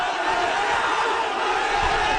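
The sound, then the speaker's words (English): A large crowd of mostly young student protesters in India roars and shouts while police swing batons during a march on Parliament. The noise is a dense, continuous roar of many voices at steady loudness. “Police in India have attacked a crowd of thousands of protesters trying to march on Parliament.”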